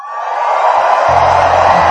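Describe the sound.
Church audience shouting and cheering, a dense, continuous roar of many voices that stays loud throughout, with a low steady tone joining underneath about halfway through.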